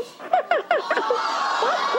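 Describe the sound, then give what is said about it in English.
A Tickle Me Elmo toy doll from Tyco laughs with a few quick, high, falling giggle bursts, followed by a run of softer chuckling that trails on. “Right? And then you look, he shakes, he laughs. See, he's shaking. It's called Tickle Me Elmo.”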